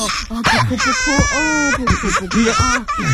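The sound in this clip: A frightened three-year-old child cries after a loud, angry voice startles them, with continuous high, wavering wails broken by short sobbing catches.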